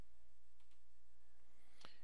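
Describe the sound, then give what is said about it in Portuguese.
A single sharp computer mouse click, made while working through Active Directory installer software, sounds near the end against a steady low electrical hum. “Bom, agora nós vamos clicar aqui em Prepare Active Directory.”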